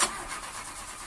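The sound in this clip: A car engine cranks without catching: a brief, continuous mechanical whirr, slightly louder at the very start.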